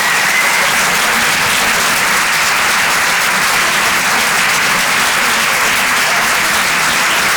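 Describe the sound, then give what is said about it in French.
Audience applause for a comedian at a comedy club, a dense, steady wash of clapping that stays loud for the whole stretch without a break. “Faites du bruit, s'il vous plaît, pour Bruno Becchi.”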